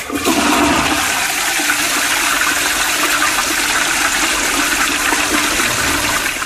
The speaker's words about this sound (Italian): Per poi andare a finire nuovamente dentro il tuo sciacquone.